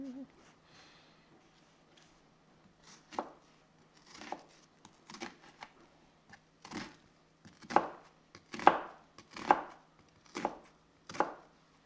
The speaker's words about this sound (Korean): 양파를 반으로 잘라서 양파 찹을 할 겁니다.